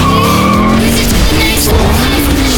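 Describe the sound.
Tyres skidding loudly as an Isuzu X-Series pickup slides, with a continuous high screech that wavers slightly over a heavy engine roar, sustained without a break.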